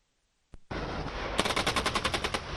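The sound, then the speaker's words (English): Automatic gunfire at a massive South Korean and U.S. joint live-fire exercise near the North Korean border: one sharp crack, then a loud sustained roar that breaks into a fast, rhythmic string of many rapid shots. “The South Korean and U.S. militaries held a massive joint live fire exercise near the border with North Korea Thursday”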